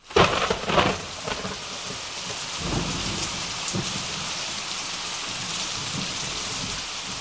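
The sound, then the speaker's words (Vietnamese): A storm sound effect of thunder and heavy rain opens with a loud, rumbling crash. It settles into a dense, steady hiss of pouring rain, with occasional low rolls of thunder underneath. “Tiếng sấm sét càng nổ vang dữ dội”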